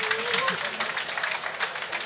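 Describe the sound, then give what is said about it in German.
Audience applause as a prize winner for a limerick is called onto the stage at an award ceremony; a short burst of brisk, moderately loud clapping. “Applaus, Applaus, Applaus!”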